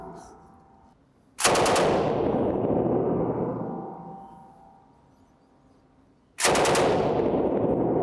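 Two loud, heavy shots from a firearm fired from the prone position, several seconds apart, each a sharp blast that trails off slowly.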